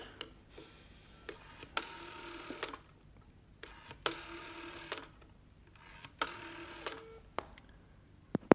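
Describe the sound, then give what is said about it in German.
A telephone is dialed before a call: several whirring dial turns, each a short buzzy burst, separated by quiet pauses and small clicks. A sharper click sounds near the end. “Dann werde ich sofort Henry anrufen.”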